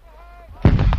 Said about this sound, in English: That is the 84 anti-tank, the 60 millimeter mortar, the GPMG SF that you can hear in the background.